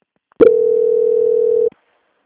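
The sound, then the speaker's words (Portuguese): A single steady telephone tone while a call is transferred, loud and unbroken for a little over a second before cutting off abruptly, with near silence around it. “A ligação vai parecer muda, mas peço que a senhora guarde em linha, tá? Tá, obrigada. Foi nada. Transferência.”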